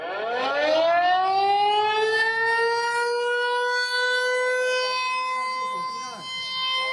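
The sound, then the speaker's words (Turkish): Civil defense siren sounding during a drill in Taipei: a loud wail that climbs in pitch over the first second, then holds a steady, sustained tone to the end. “Taipei'de siren sesleri bir süredir rutin hale gelmeye başladı. Sirenlerle birlikte vatandaşlar da sokakları terk edip metro istasyonlarına veya sığınaklara gidiyor.”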